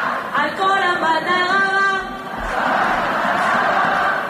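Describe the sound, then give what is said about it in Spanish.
At Estadi Johan Cruyff, Alexia addresses the fans: a loud, amplified voice calls out over the stadium crowd for a couple of seconds, then the crowd answers with a sustained roar of voices. “Sonido ambiente ahora mismo Johan Cruyff con Alexia, que está tomando la palabra. Y está ahora mismo animando a todo el público a que cante el día de partido con ella.”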